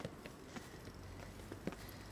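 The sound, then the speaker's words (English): Faint footsteps sound as people walk up the stairs of a bridge. A few soft, irregular thuds rise over a low, constant background rumble. “before you get to the top of the bridge, which we are walking up the stairs now.”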